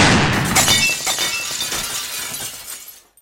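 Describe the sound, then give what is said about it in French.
Castle window glass shatters in a loud burst of breaking panes. Bright, scattered tinkling fragments follow and trail off into silence. “si on n'a pas pris la précaution d'ouvrir toutes les vitres, il faut imaginer que toutes les vitres du château ont volé en éclats, donc on a des vitres partout.”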